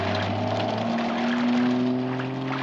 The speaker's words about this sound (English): It's my neighbor's truck. He runs a worm farm. That is such an old truck.